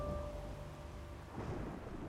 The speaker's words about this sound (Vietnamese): Ở bên ngoài sấm chớp xé trời, nhưng cũng chẳng có lấy một hột mưa.